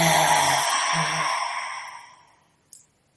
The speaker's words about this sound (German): Und mit geöffnetem Mund auszuatmen und die Zunge rauszustrecken und einen Ton zu machen. So einatmen durch die Nase. Ausatmen.